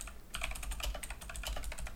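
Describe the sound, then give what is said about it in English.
Rapid typing on a computer keyboard as someone types out a search question, a quick, steady stream of soft, crisp key clicks, quiet and uninterrupted. “Oh, look at you trying to type out a good question.”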